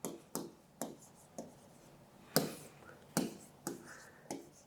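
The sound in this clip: Handwriting on paper as a figure is written down: a series of about nine short, sharp pen strokes and taps at an uneven rhythm, with quiet gaps between them.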